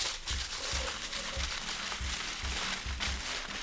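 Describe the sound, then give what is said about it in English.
Aluminium tin foil crinkles and rustles as it is rolled up by hand, a steady, busy crackle that continues throughout. “get a piece of tin foil that's about double the length as your paper towel roll. I got this, and now what I'm gonna do is I'm gonna roll it up,”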